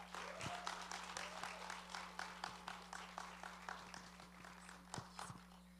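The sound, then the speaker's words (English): An audience at a church service claps faintly to welcome a guest speaker: many quick, even claps over a steady low hum. “Okay, just put our hands together. Let's welcome her.”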